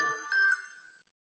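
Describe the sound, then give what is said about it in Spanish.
A mobile phone ringtone plays a bright, tonal chiming melody for about one second, then cuts off abruptly. “Le llamo luego, por favor. Perdona, voy a ponerlo en silencio.”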